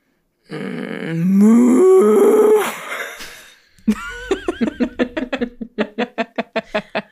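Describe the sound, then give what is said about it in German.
A voice imitates moaning in a Bavarian style with drawn-out, wavering groans that rise in pitch, then breaks into a fast run of many short, rhythmic grunting pulses. “ich habe mich dann auch gefragt, wie man auf Bayerisch stöhnen soll. Und ja. Ich habe einfach gerannt, dass es vielleicht so klingt.”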